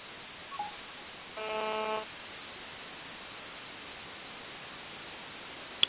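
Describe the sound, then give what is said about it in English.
A single telephone keypad tone sounds while a call is being placed: one short, steady beep over a constant thin line hiss, with a faint click before it and a small tick at the very end. “They keep trying to reach Salinas Porto, and they just keep receiving a voicemail.”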